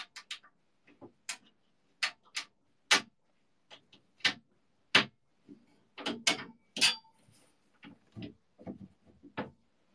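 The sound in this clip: Stiff screws being turned while a shelf is assembled give many sharp, irregular ratcheting clicks, some grouped in quick bursts and others spaced apart, heard alone without any talk.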